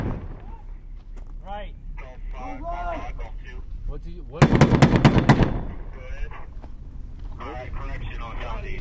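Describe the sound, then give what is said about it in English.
A loud burst of gunfire during a battle between troops and Taliban fighters in the town of Dahana, with rapid shots lasting about a second. Men talk and shout before and after it. “Bullets, mortars, and rockets rain down in periodic bursts on the troops.”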